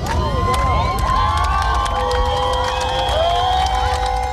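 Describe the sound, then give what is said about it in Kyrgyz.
A crowd cheers with shrill whistles and shouts in the central square of Yerevan at a protest rally as news of the prime minister's resignation arrives. The dense, loud roar stays steady throughout. “Еревандын борбордук аянтына чогулгандар бул кабарды кыйкырык сүрөө менен, кубануу менен кабыл алышты.”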